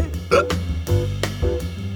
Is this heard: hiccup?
yes